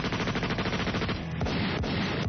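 Rapid machine-gun fire rattles in dense, continuous bursts of sharp, loud reports that barely pause through the whole stretch, with no voices.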